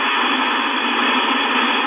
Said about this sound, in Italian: No, se senti questo fruscio il muting è disinserito, si sente fruscio.